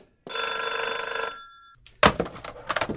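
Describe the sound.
A telephone rings in one sustained, bright, buzzing burst of about a second and a half. After a brief gap come several sharp knocks and clatters of differing loudness.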